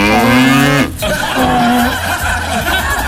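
A cow moos twice: first a long, loud lowing call with a rich harmonic drone, then after a brief pause a shorter second moo, followed by low rumbling.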